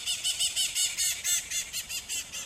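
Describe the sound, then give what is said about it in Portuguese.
Birds in Rio de Janeiro chirp in a rapid, regular run of shrill, high calls, a dozen or so evenly spaced pulses with no talk. “Os pássaros são nervosos também.”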